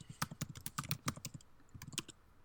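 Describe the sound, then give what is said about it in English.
Typing on a computer keyboard, bursts of many quick, crisp keystrokes with a short pause partway through, fairly faint and with no talk over them. “I'm pulling it up now. Apologies for taking a minute here. If I can type in.”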